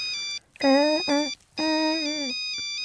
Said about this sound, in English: That was our ringtone back in the days, kids, if you're listening.